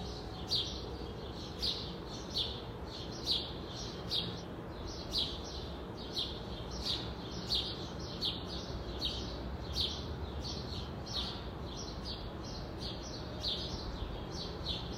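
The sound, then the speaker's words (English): Birds singing in a backyard, high bright chirps repeating at a fairly steady rhythm over a constant hiss of background noise, all fairly faint. “I even recorded just a little bit from the birds in my yard for you to listen into.”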